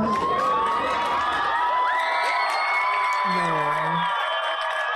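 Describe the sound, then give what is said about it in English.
A studio audience cheers loudly and continuously, with high whoops and excited shouting voices on top, and a lower shout near the end. “Y'all really just, like, every time the studio audience shows love, it's just joy to my heart, y'all.”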